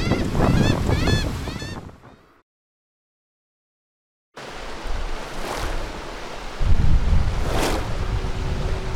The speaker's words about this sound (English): Oh, just got underway, clear of the harbor. Calm seas, wind in my sails.